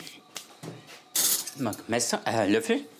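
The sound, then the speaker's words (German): A spoon clinks and scrapes as stuffing is filled into an onion, with several bright metallic chinks and a voice talking over the kitchen sounds. “Löffel und dann füllen wir die Zwiebel jetzt einfach.”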